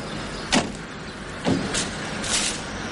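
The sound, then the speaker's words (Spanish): A car stops and a police commissioner steps out, heard as two firm door-like thumps over a low vehicle rumble, followed by softer clicks and a brief hiss. “el comisario llega en un coche y se detiene junto a ellos.”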